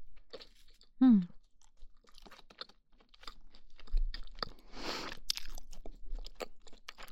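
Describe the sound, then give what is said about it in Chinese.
Crunchy toast crust being chewed, with crisp, irregular crunches and a short hummed vocal sound early on. “不喜欢吃面包片的那个皮的边边，但这个吐司边边好好吃。”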